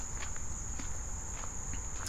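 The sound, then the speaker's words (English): Footsteps walk back through a cut toward a boardwalk, several soft, evenly spaced steps under a constant high buzz of insects or crickets. “Okay, so I'm walking back through the cut, and we're going to head out onto the boardwalk”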